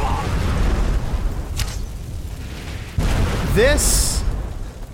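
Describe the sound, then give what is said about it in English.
A magical explosive blast from a Hagraven enemy in the video game Skyrim, a loud, broad burst that erupts about midway through a steady rumbling wash of game noise. “she is blasting a rock. Ooh, I hit her. Did that really hit me? Are you serious?”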